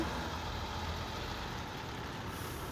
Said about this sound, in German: Wir fahren weiter zum nächsten.